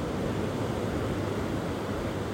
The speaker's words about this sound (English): So as you sit and you lie and you listen to the waves,